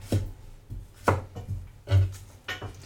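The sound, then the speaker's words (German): Knife chopping garlic on a board while cooking broth: several sharp, distinct chops spaced at irregular intervals, each a short knock against the board, with quiet pauses between them. “Schneiden wir gerade den Knoblauch.”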